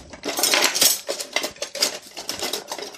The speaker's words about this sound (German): mache ich jetzt hier meinen Wok an und hole mir noch einen Kochlöffel dazu.